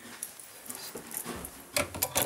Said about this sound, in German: So, jetzt lassen wir unsere beiden Ameisenbären raus. Der Leon und die Xippe.